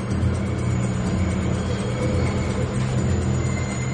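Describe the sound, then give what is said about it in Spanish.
A subway train pulls into a station with a steady, loud rumble of wheels and cars and a constant metallic hiss above it. The sound stays even throughout, with no voices. “Un tren llega.”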